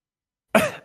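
One short, sharp cough from a person who has just choked, rising abruptly out of silence and fading within a fraction of a second, with no other sound.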